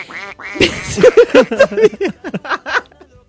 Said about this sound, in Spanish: Los gansos tienen un magnífico sentido del oído y si escuchan algo comienzan a graznar muy alto.